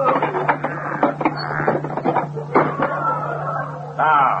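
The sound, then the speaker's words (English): A treasure chest lid is pried open: a run of short scraping, knocking bursts gives way to a longer drawn creak at the end, over a steady low hum. “Reach down to that hole and bring out that chest. Now, pry open the lid.”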